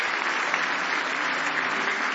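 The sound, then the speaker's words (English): Congregation clapping hands in praise during a church worship service, a dense, steady wash of many hands applauding together at a lively, even level throughout, with no voices standing out. “Give Jesus a big hand clap of praise this morning.”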